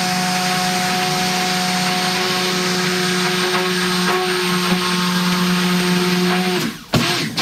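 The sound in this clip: Oils are mixed with sodium hydroxide solution in a mixing bowl, giving a loud, steady motorized whir with a constant humming tone. Near the end it cuts off abruptly, followed by a short clatter.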